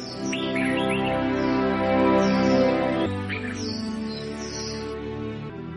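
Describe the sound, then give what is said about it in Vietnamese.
Birds chirp in the tree canopy outside a window, with bright, high, rapid tweets in short phrases over a steady, sustained tonal background. “Anh thức dậy trong những âm thanh quen thuộc của chim chóc trên tán lá ngay ngoài cửa sổ.”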